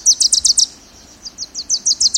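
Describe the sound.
Song of a Wilson's warbler, the tiny yellow bird of dense thickets in northern coastal forests: two bursts of rapid, high chattering notes in quick runs, a brief pause between them, clear and fairly loud.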